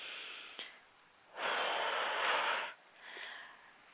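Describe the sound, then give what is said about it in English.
A woman takes a big, deep breath: a small sniff, then a long, loud, airy rush of breath lasting over a second, followed by a shorter, softer breath. No words are spoken. “Somebody said take a big, deep breath”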